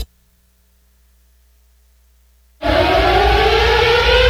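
Loud siren wail bursting in abruptly after about two and a half seconds of silence, then holding steady and dense to the end, its tones stacked in bright bands over a heavy low rumble.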